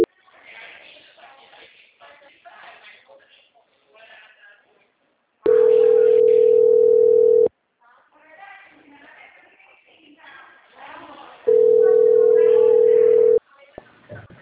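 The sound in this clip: Two long, steady telephone tones, each lasting about two seconds, sound after a transferred call drops. Voices talk before, between and after the tones.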